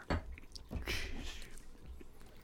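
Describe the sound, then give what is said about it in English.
Someone chews cheese with soft, moist squishing and a few quiet bites, faint and close, with no talk. “You guys are disgusting. This is like some ASMR cheese.”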